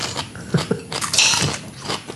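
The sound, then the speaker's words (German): Crunchy chewing of raw radishes: several irregular, fairly loud bites and munching noises, with no talk. “Jetzt esse ich Radieschen und Kuchen.”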